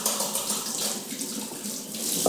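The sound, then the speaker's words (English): Tap water runs steadily as hands are washed under it while cooking, a continuous bright hiss with slight splashing fluctuations, fairly even in loudness and with no voices. “let me just go and wash my hands”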